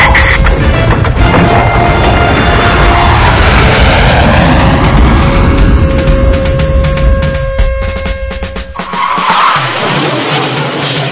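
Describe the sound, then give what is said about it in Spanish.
A squadron of jet aircraft takes off with a loud, continuous engine roar and whine that sweeps and shifts in pitch. The roar briefly dips near the end, then surges back. “Ok, vamos a despegar. Pilotos del escuadrón 201, ¿están en posición? Enterado, estamos en posición. Prepárense para despegar, ¡ahora!”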